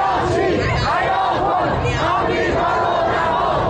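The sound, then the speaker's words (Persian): Supporters of the Islamic Republic chant slogans outside the Foreign Ministry representative office in Mashhad, a loud, dense mass of voices chanting steadily without pause. “شعار شماری از هواداران نظام در مقابل نمایندگی وزارت خارجه در مشهد که شنبه شب به تهران هم رسید.”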